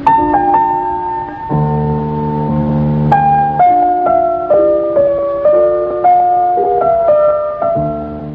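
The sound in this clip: A Baroque concerto played on solo piano: a clear melodic line over steady chords, with notes changing at a regular pace throughout, at an even, moderately loud level and with no voices.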